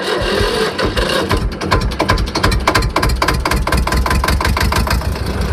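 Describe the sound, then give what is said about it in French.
An old farm tractor engine starts and runs, settling into a loud, rapid, evenly spaced chugging beat that continues without a break to the end. “des tracteurs qui fonctionnent, d'autres qui fonctionnent moins bien. La plupart démarrent quand même au quart de tour, la preuve.”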